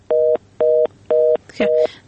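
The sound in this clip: Four evenly spaced beeps of a disconnect tone as a phone call to a radio call-in program is cut off, each steady and at the same pitch, with a brief voice overlapping the last.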